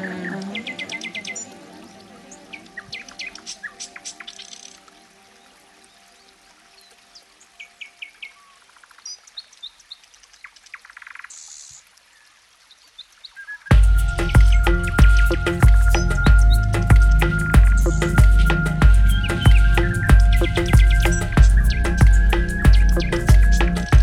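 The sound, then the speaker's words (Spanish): Bird song from a Tiori, a small grey bird with a yellow breast and black head stripes that sings along rivers. Many short, high chirps and calls come first, then a louder, steadily repeating pulsing sound with sustained tones. “con pechito amarillo y acá tenía rayitas negras por su cabecita. Ah. Ranjitas. Eso es Tiori. Tiori. Tiori. Tiori, Tiori canta en los ríos, ¿eh?”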